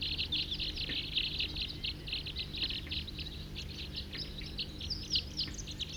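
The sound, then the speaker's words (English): A flock of about forty wild birds calls in a dense, continuous chorus of high, rapid chirps and tweets, faint and steady with no talk. “Wild birds, 40 calling there.”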